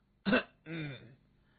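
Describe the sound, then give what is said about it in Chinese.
Throat clearing performed by a storyteller voicing a character: one short, harsh burst, then a longer, rougher, voiced rasp, heard alone without talk. “这个时候，萧雨清了一下嗓子呀”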